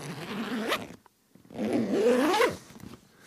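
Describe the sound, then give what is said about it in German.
Zipper on an Italian leather bag by The Bridge, pulled twice: a short rasping zip, a brief silence, then a longer zip that climbs in pitch and cuts off sharply. “Das ist eine Ledertasche, gerade aus Italien angekommen, von The Bridge. Sehr edle, schöne Marke italienischen Leders”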